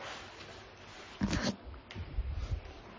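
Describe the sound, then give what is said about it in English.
A tape measure is pulled out, giving one brief rasping, zipper-like burst in the middle, set against low background rustle. “Just to illustrate, we're going to get out our famous time tape measure.”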